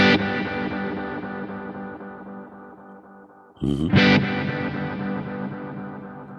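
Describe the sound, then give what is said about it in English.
Electric guitar through a two-tap delay on a Kemper Profiler, without compressor or fuzz, with heavy feedback, a high mix, quarter- and eighth-note repeats and some high cut. Long sustained notes ring and smear into their echoes, and a fresh, louder attack comes partway through. “Next guy to give some longer notes is the two-tap delay. I play it without compressor and fuzz.”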